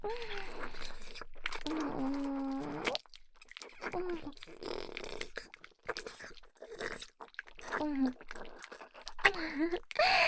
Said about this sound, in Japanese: たくさんもぐもぐ。しちゃいますからね。